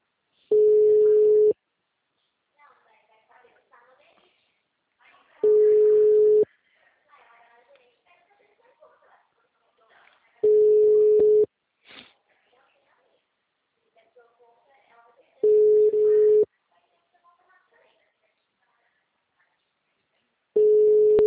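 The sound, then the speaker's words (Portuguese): Telephone tones while placing a call: five steady, mid-pitched beeps about a second long, evenly spaced roughly five seconds apart, with faint murmuring in the gaps between them. “Sim, deixa eu fazer uma ligação, peraí.”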